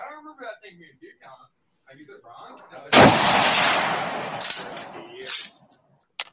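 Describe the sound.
A single loud gunshot cracks out after some talk as someone fires, leaving a long, rolling reverberant tail.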